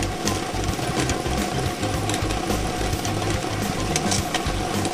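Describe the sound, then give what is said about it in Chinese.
A lottery drawing machine starts up and runs, giving a continuous mechanical whirring and rattling over a low, rhythmic pulsing rumble that holds steady throughout. “摇奖机正式启动了，祝大家好运”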